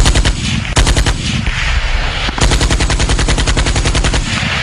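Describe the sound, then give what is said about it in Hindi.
Rifle fire rattles through a battle against enemy soldiers: loud, rapid shots in long, dense bursts broken only by brief gaps, continuing through the whole stretch. “तभी captain Gurjinder Singh Suri ने अपनी rifle उठाकर दुश्मन के दो सैनिकों पर वार कर मार गिरा दिया।”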